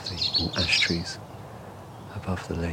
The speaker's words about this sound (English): So I'm just hearing a little robin singing above me in these hazel trees,